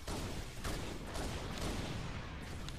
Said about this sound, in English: Ooh, they're shooting at me. Those hunters are.